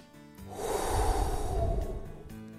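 A single deep breath, airy and soft, swells up and fades away over about two seconds, quiet and heard on its own.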